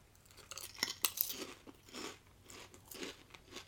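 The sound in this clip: Hot and spicy snack chips are crunched and chewed. A few sharp, crisp bites come near the start, followed by softer rhythmic chewing crunches, all fairly quiet with no talking.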